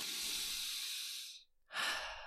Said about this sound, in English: What you do is you take a deep breath.